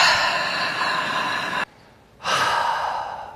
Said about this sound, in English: Just take a really deep breath in and breathe in all that hope, all that love, and just breathe out all that fear.